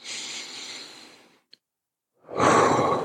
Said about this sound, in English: So we all breathe in.